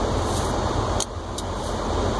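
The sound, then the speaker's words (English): A car rolls along a road with a steady, even rumble of engine and tyre noise. A couple of faint brief clicks sound over the constant drone. “Buyers are headed over there and I need to get there too. I'm gonna take my time though. Don't want to drive fast and get in an accident.”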